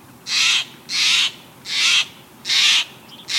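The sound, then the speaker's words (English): A jay, blue jay or Steller's jay, calling at a feeder: four loud, harsh, rasping calls at an even rhythm, each lasting about a third of a second, with quiet gaps between them. “East of the Rockies, your visitor's quite likely a blue jay. Out west, you're probably seeing a Steller's jay.”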